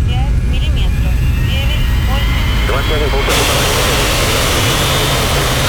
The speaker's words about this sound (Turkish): Kalkış izni verin. Kontrol sende. Hadi havalanalım. Lütfen sakin kalkış olsun.